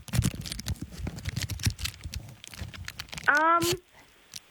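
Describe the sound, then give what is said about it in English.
Packaging being unwrapped makes a steady stream of crinkly crackles and rustles. A short voiced sound cuts in near the end before things go quiet. “Oh, I'm unwrapping it now.”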